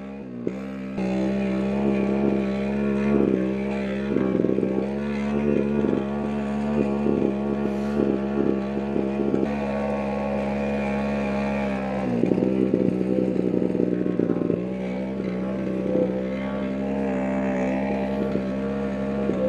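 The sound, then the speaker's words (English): An engine revs while it is being tuned for compression and rev rate, a loud, steady drone with a buzzing tone that wavers and surges slightly throughout. “Got quite a lot of revs right now. Still so hard to adjust the correct compression and rev rate.”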